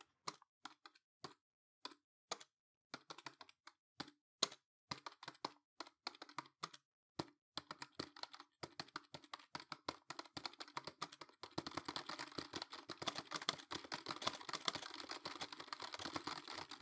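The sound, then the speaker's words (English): Someone types a passcode on a computer keyboard. Crisp clicks come slowly and sparsely at first, then build into quicker, denser tapping toward the end, with no voices. “Let me open up the inbox. Let me just put in the passcode here.”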